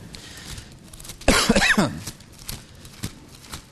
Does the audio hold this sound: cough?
yes